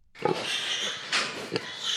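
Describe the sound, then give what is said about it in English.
Grunts and squeals from a litter of sick pigs with porcine epidemic diarrhea on a hog farm, with a few sharp squeals standing out over steady snuffling noise. “And these are some of his sick pigs. This is a PED litter.”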